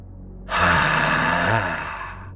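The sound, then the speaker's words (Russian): Wild, heavy breathing from afar on a foggy street, a single long rasping breath that swells suddenly, holds loud for about a second and a half, then tapers off, heard alone. “издалека послышалось такое знакомое дикое дыхание.”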